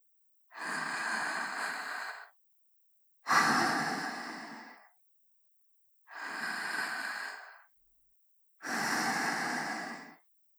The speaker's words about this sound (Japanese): ほら、私の吐いた息を吸って。